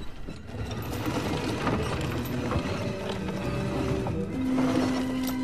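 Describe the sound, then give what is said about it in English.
Mechanical ratcheting and clanking of a dumbwaiter being hauled up its shaft by hand, a steady, dense rattle with a low hum that continues throughout. “Jared climbs into the dumbwaiter and hauls himself up the shaft”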